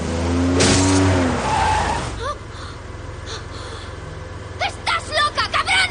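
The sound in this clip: A car accelerates hard and drives off after its window is smashed with a metal rod, opening with a loud engine roar and squealing tires that drop away after about two seconds into a quieter rumble broken by short bursts.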